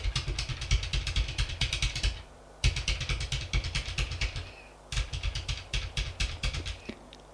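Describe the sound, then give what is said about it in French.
Fingers type rapidly on a computer keyboard, producing a steady patter of clicks in three long runs separated by short pauses, over a low hum. “il tape sur son ordinateur”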